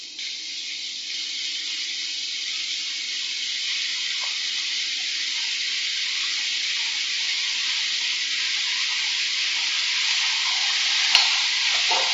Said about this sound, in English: I'm going to add them in two batches, especially with mushrooms because they tend to go very watery very quickly. Very hot pan. Keep them moving.